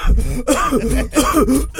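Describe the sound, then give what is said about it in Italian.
Coughing after singing comes as several rough, voiced throat bursts in quick succession, loud and hoarse, separated by brief breaks. “No, che quando canto poi devo tossire, altrimenti non è.”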